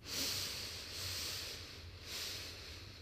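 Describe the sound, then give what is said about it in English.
A slow, deep inhale through the nose during a calming breathing exercise: a soft, continuous airy hiss that lasts about three seconds, gently rising and easing in strength, with no talk. “just inhale through your nose for four.”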